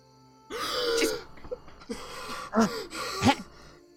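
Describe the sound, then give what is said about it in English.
A woman in her early thirties gasps and makes odd, ragged breathing sounds, a few rough breathy bursts with throaty catches, moderately loud with no talk. “Making weird breaths.”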